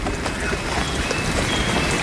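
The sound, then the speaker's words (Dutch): A warm rain shower falls in a hot, soaking-wet swamp forest, a dense, steady patter of drops with a hissing wash and no talking. “Heerlijk, zo'n regenbuitje. Oh, en het is gewoon een warme douche die je krijgt.”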